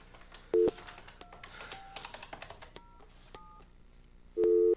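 A telephone number is dialed during a morning show, with a string of short keypad tones between two longer, louder call tones at the start and end. The clicks in between are faint.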